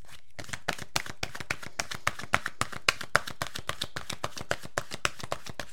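Oracle cards are shuffled by hand in a long, even run of many soft slapping taps at a steady, brisk rhythm, with no talk.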